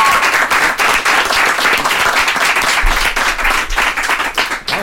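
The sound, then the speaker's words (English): Loud, crowded applause and cheering break out at a DJ event after a call to make noise for a Chicago DJ. Rapid claps pile into a dense, pulsing roar that holds for nearly five seconds before tapering off. “Well, can everybody make some noise for Richard Vision Bad Boy Bill?”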